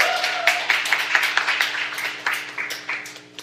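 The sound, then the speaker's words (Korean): Audience applause at a live public recording event for a tenth-anniversary show, a brisk patter of clapping with a steady low hum running beneath it. “박수로 좀 예, 반갑습니다.”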